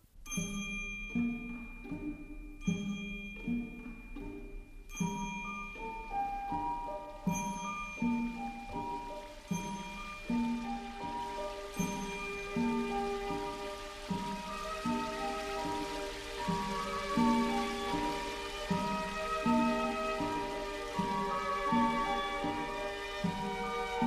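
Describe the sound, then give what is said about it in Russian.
Rain falls in a steady soft patter, with ringing chime-like tones sounding above it throughout the long stretch. “Льет дождь.”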